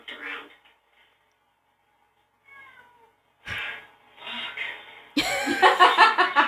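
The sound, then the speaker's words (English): A house cat meowing at a door to be let out: a few meows of varying length, with soft, thin calls first and a louder, sustained, wavering meow at the end. “You know, he's at the door. Meow. That's the first time he's ever done that.”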